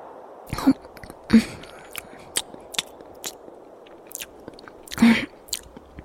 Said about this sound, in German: Ich hätte nie gedacht, dass so ein trockenes Stückchen Brot so gut schmecken kann.